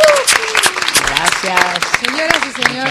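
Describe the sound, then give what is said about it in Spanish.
Applause from a group visiting a national radio station's studio during a museum night; scattered claps mix with voices and cheering at a fairly loud level. “Ya entró otro de los grupos que está visitando en esta noche de museos nuestra Radio Nacional. Por eso el aplauso”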